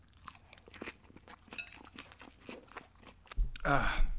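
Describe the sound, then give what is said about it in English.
Crisp, crunchy chewing of a salad, many short bites and munches in an uneven rhythm, with a louder burst of noise near the end. “Wow, that was delicious. I just finished that salad.”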